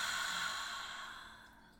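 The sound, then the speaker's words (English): A deep breath breathed out through the mouth: one long, airy, steady rush of air that gradually fades over nearly two seconds. “Let's take a nice deep breath in through our nose and out our mouth. Oh, and that beautiful air, and breathe it out.”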